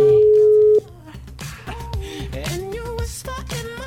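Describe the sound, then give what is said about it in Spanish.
A telephone tone during a call to a listener on a daily radio program: a steady, mid-pitched electronic tone holds for under a second and then cuts off, and talking follows. “Va, espérate, vamos a marcar aquí.”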